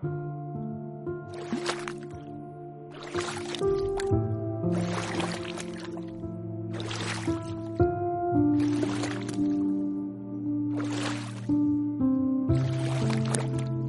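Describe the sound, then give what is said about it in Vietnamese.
Rhythmic watery swishes of a small wooden boat pulling away from a landing, repeating steadily about every second and a half over a sustained musical backdrop. “Chiếc ghe từ từ thách bến.”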